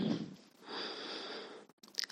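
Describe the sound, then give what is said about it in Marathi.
An inhaled breath taken before chanting a mantra: a soft, breathy hiss lasting about a second, quiet and steady, with brief faint noises before and after. “श्वास घ्या”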